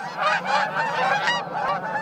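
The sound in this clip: Geese honk in a gaggle, many overlapping nasal calls forming a loud, continuous chorus with no pauses and no voices.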